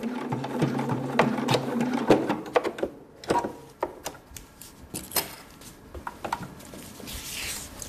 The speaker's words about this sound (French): Sa machine à coudre trône en bonne place dans son salon de coiffure de Peuzeux, dans le canton de Neuchâtel.